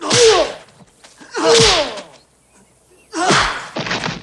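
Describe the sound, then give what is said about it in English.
Punches and kicks land in a fight, heard as a few sharp whooshing impacts in separate bursts with quiet gaps between them. “They fight. Williams punches and kicks dazed Parsons.”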